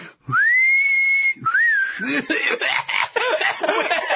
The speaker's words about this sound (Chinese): 刘备摇着头吹起了口哨。